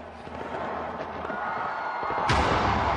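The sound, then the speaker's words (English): Fireworks at a New Year celebration in Sydney marking the dawn of 2016: a dense, continuous rumble and crackle of bursts with no clear gaps, growing fuller and louder toward the end. “in Sydney, one of the first places marking the dawn of 2016, Australians enjoyed one of their biggest fireworks displays ever.”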